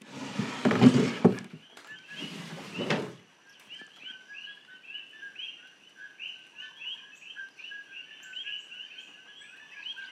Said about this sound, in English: So those are not birds. I know it sounds a bit like they might be birds. They're called kokis. They're frogs. And the ones that you hear are males who are singing to attract